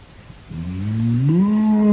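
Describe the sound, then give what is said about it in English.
A human voice imitating a cow mooing: one drawn-out low call that begins softly, then rises in pitch and swells louder toward the end, heard alone. “moo.”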